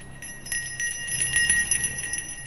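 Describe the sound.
A small ritual hand bell is shaken gently by a Then practitioner during a chanting ceremony in a courtyard, giving a bright, sustained, shimmering ring with many rapid, light strikes and no voices audible.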